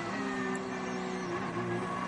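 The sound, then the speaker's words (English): Racing engines from an Aston Martin and a McLaren battling through a turn on a circuit, heard as a steady, fairly faint droning tone with a continuous, even loudness throughout. “Aston Martin going through turn 4. He gets his nose alongside the rear of the car, but the McLaren comes across his nose.”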